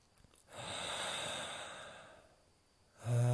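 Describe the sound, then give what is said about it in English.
A single long, airy breath taken during a relaxed belly-breathing exercise swells and eases away over about two seconds. A short quiet pause follows before a voiced sound starts at the very end. “Take a nice deep breath in to the belly. Relaxed exhale into the belly.”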